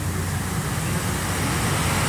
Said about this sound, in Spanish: Ya a esta hora el tráfico vehicular sobre el Boulevard Colosio se empieza a incrementar un poquito y dentro de unos minutos más, pues va a haber más tráfico.